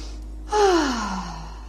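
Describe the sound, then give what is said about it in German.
A deep breath drawn in and let out during a guided relaxation exercise: one audible gasp-like inhale that eases into a long, falling sigh, heard alone. “Und dann atme nochmal tief ein und aus.”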